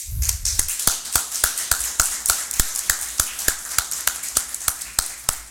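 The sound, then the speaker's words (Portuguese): Rhythmic clapping after a unanimous vote at a city council session: many sharp, evenly spaced claps at a brisk, steady pace throughout. “Aprovado por unanimidade. Dá para bater palma.”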